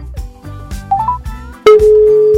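Telephone ringback tone from a call attempt to a radio listener. A couple of short, higher beeps give way to a long, steady low tone that holds to the end over busy background sound.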